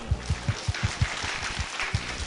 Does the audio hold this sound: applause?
yes